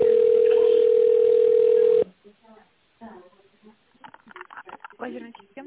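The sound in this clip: A steady, unbroken telephone line tone holds for about two seconds while a call is transferred to an operator. It then cuts off abruptly, and a voice begins speaking over the line.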